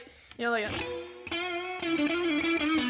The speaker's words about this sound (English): do a lot of like bends and like, you know, we got that guitar in your lap. Give us an example. Yeah, like bends,